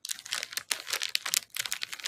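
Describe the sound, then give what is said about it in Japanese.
Rustling, crinkling noise in a run of dense, crackly bursts with short gaps between them, fairly faint and with no talk. “ガサガサ言ってるけど。”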